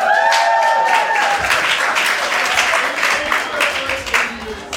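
Loud, lively audience applause greets the opening of the Disruptor Series Live event at the TBWA Chiat Day agency in New York, with dense clapping and a few rising whoops throughout.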